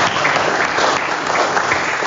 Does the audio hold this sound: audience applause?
yes